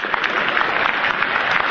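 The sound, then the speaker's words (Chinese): Audience applause: dense, steady clapping that holds at an even, fairly loud level for the whole short stretch, with no voices over it. “请首先为我鼓掌，掌声鼓起来。”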